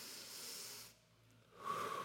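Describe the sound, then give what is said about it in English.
A deep breath is taken during a talk: a soft, airy inhale, a short pause, then a hissing exhale, all faint and with no speech. “So here, just for a moment, everybody take a deep breath with me, all right?”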